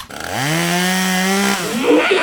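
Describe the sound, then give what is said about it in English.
Chainsaw revving, a loud buzzing engine tone that climbs in pitch and then holds steady, heard alone with no talk. “I'm the big bot and I've got a big chainsaw and I'm gonna mow through all of you!”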